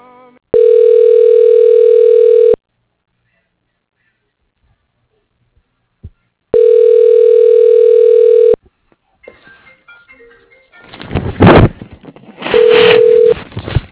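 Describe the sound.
A telephone ringback tone plays on the line while a call is being transferred. Two long, steady rings of about two seconds each are separated by silence, then noisy line sounds follow with one shorter tone.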